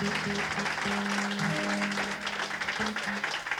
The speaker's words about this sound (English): Would you please welcome Charles Sawtelle on the guitar. Give him a big hand.